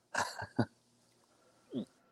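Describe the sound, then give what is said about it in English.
Hiccups: a few short, sharp bodily bursts, with a quick pair close together near the start and another single hiccup after a pause. No talk over them. “I was hiccuping like coming down here”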